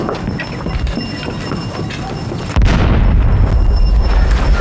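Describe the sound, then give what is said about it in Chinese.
A heavy boom of artillery cannon fire bursts out partway through after a stretch of dense, rough noise, followed by a loud, sustained low rumble. “哪儿大炮？哪儿大炮？”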